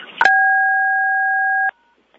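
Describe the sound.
A phone keypad tone from a caller pressing the pound key to mute on a conference line: one steady two-pitch beep held for about a second and a half, preceded by a short burst of noise and ending abruptly.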